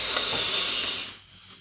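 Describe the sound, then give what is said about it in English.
A slow breath drawn in through the nose: a steady, airy hiss that holds for about a second and then tails off into quiet. “Breathe in through your nose, push your belly out.”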